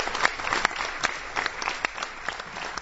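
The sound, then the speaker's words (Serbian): Audience applause for Julian Assange: dense, steady clapping from many hands that holds at an even level for the whole stretch, with no voices rising above it. “I zato bi dobro bilo da jedan veliki aplauz uputimo upravo Julian Assangeu koji trenutno umire u zatvoru u Londonu.”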